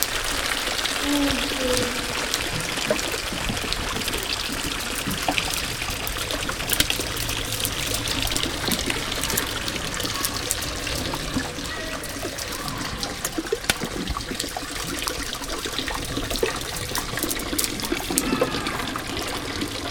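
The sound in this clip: Water flows under a small footbridge, making a steady, continuous trickling and rushing wash with no clear pauses over the whole stretch.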